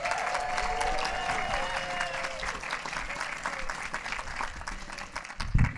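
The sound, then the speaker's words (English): An audience applauds a comedian taking the stage, with thick, continuous clapping from many people that stays fairly level, thinning slightly toward the close. “please make a lot of noise for Leslie Bing.”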